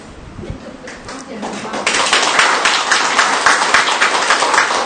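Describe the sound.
Audience applause in honour of Saint Andrew Dung-Lac: scattered clapping builds to dense, loud, steady applause midway, with voices talking over the start.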